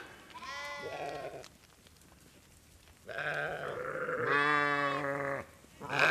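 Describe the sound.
Livestock in a herd bleating: a few long, wavering bleats, loud and overlapping in places, separated by a quieter stretch with no talk.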